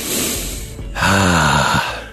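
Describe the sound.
Someone takes a deep breath: a rushing intake of air is followed by a longer, louder exhale that carries a voiced, sighing tone before fading out.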